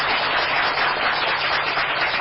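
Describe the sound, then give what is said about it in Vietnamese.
Long round of applause from a Buddhist audience at a temple, a dense, even wash of many hands clapping that stays loud and unbroken from start to finish. “Phật tử cho một tràng vỗ tay thật dài.”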